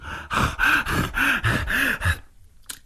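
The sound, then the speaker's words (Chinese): A voice imitates the heavy, ragged panting of a man who has just been badly beaten: a quick run of about seven loud, rasping gasps in a steady rhythm, then a sudden stop into near silence. “打得太疼了。他光顾了喘气”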